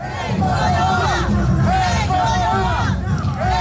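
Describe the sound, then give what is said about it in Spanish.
Thousands of protesters march through the historic centre of Lima, chanting a protest slogan in loud, repeated waves of massed voices. “Son los manifestantes, miles, que bajo el lema Keiko no va, lo escuchábamos, han recorrido las calles del centro histórico de Lima”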